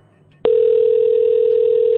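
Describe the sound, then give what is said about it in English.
A telephone dial tone on a line as a call is placed: a steady, unbroken electronic tone switches on abruptly after a brief near-silent moment and holds at an even level to the end. “Because we're dialing Kelly right now.”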